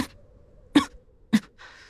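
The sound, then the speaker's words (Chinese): Two short, quiet coughs from a man riding on horseback, spaced a little over half a second apart with near silence around them. “他低低咳嗽几声，身体僵硬得有些不自然。”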